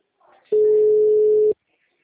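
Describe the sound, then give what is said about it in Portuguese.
A single steady telephone tone sounds while someone places a call, lasting about a second at an even, constant pitch and fairly loud, with a faint brief sound just before it. “Tentando ligar para ele.”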